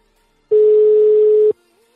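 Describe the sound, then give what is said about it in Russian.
A telephone tone sounds while a call is dialed: one loud, steady, pure mid-pitched beep that holds for about a second and then cuts off cleanly. “Так, еще раз набираю, что там пишет недоступен, еще раз набираю.”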